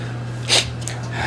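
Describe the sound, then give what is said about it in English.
A single short, sharp, breathy sniff over a low steady hum. “That's my truth telling sniff.”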